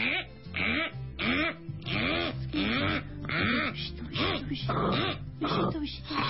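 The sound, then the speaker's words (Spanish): Kangaroo calls played back from a recording, a continuous series of guttural, moaning grunts with rising and falling pitch, repeated many times in quick succession with a thin, band-limited tone. “A ver, ponnos al canguro otra vez. Sí, ponnos a Skippy.”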